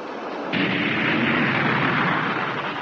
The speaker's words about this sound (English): All jets firing.